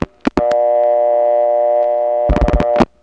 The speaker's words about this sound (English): I dialed 3, and from the noise you can tell I'm on a Trinity selector.